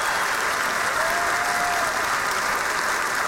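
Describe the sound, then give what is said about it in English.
Church audience applauding at Cornerstone Church in San Antonio, a loud, dense wash of clapping that stays steady and even throughout, with no break. “Put your hands together and welcome King Jesus into the house.”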